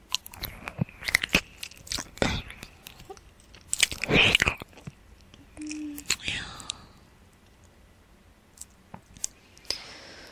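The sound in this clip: Wet mouth sounds of nibbling and chewing on an ear: many soft, irregular clicks and crunchy bites, with a louder chewing burst near the middle, accompanied by faint whispering.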